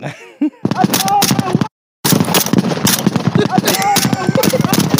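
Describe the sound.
Gunfire from a war video playing back: many rapid, sharp shots crackle in dense bursts, interrupted by a brief dead silence where the playback drops out, with voices mixed in.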